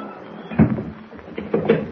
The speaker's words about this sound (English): Close the door and slip the bolt, eh?